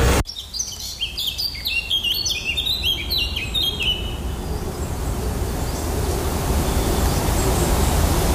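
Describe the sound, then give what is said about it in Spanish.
Birds chirp and twitter in a New England forest in the northeastern United States, with a run of quick, high, bright calls in the first half, then a steady broad hiss of ambient forest noise carries on alone. “Así suena un bosque de Nueva Inglaterra, noreste de los Estados Unidos.”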